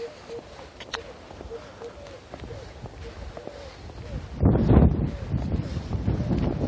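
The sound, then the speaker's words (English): Wind blowing outdoors near a house, a steady rushing buffet that swells into a strong gust partway through and stays louder to the end. “I had a little break from the wind. It's back.”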